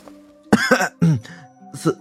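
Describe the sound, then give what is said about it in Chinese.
A nervous cough, imitated by a voice: a few short, throaty, voiced bursts come in quick succession, clipped and fairly loud, with no other talk around them. “严福瑞紧张地咳嗽了一声”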